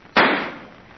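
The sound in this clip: A gunshot in an empty, deserted house: one sharp, loud crack that bursts suddenly and trails off in a decaying tail lasting almost a second.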